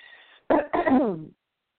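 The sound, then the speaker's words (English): A person coughing and clearing their throat: one short rough burst, then a longer voiced rasping clear, with silence after. “please excuse my throat. I feel like a song, let me clear my throat. Please excuse my voice.”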